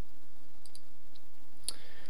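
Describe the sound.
Computer mouse clicks, a few faint, sharp ticks scattered over a steady background hiss, with one slightly crisper click near the end.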